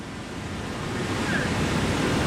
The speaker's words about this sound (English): That incredible sound you can hear, that thunderous sound, is the sound of the Victoria Falls here on the border of Zambia and Zimbabwe in southern Africa.